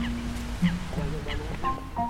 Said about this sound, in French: Regardez lui là, la petite poule là. Elle est où la poule ? Ah, regarde. Ah, elle est sortie, elle est carrément. Ouais, elle s'est barrée. Trempée.